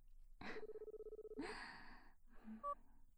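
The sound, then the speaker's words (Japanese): A telephone call is being placed: faint electronic dialing tones, including a sustained steady tone followed by a few short beeps, with a soft breathy sound near the start and no talking. “あら、もうかけちゃってるからすぐに出ると思うよ。”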